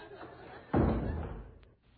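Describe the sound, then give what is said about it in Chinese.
A door is shut with a single dull, heavy thud, and a rumbling noise decays for about a second afterward. A faint short tick follows near the end. “关上门”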